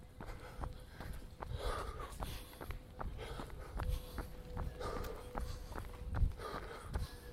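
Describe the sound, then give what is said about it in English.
Heavy mouth breathing from a runner at a light jog in Prospect Park, with quiet panting breaths over a steady, regular patter of footfalls. “I was doing heavy mouth breathing after only 4 minutes of what could best be described as a light jog.”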